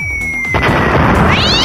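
A bomb explosion sound effect marks a wrong answer in a music quiz show. A steady tone is cut off by a loud, sustained burst of noise that ends with warbling, rising tones.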